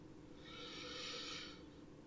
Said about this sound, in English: Just take a deep breath. In and out.